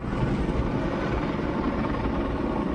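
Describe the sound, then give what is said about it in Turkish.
Firefighting helicopters battle a wildfire from the air near Drammen, a steady, loud rotor and engine roar that holds even throughout, with no talking. “İtfaiye ekipleri karadan, yangın söndürme helikopterleri ise havadan alevlerle mücadele etti.”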